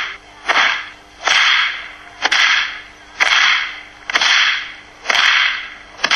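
A whip cracks forward and backward in steady rhythm: a regular series of sharp cracks joined by loud swishing whooshes, repeating about once a second with no voices.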